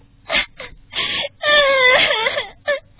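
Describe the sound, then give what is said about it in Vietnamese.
A little girl sobbing in a told story: a few short gasping whimpers build into a long, wavering, rising-and-falling wail, ending with one more brief sob. “Cuối cùng cô bé ngồi thụp xuống trong vòng tròn, rồi khóc nức nở.”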